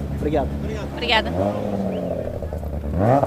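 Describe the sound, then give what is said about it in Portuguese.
Racing cars pass before a watching crowd, their engines revving with whining notes that sweep up and down in pitch, overlapping one another, with talk over them. “é perceptível o aumento da rotação aí na tua zona? Sim, bastante. Tanto a rotação como o ruído aqui dos carros a passar.”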